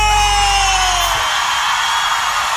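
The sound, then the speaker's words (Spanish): A festive Mexican grito, one loud, drawn-out yell that cuts off after about a second, leaving a steady wash of background noise. “Y ese grito mexicano”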